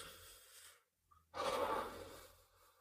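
A deep breath during a guided breathing exercise: a soft airy sound fades into a short silence, then a louder, long rushing breath rises and slowly tapers off.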